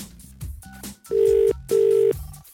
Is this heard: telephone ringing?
yes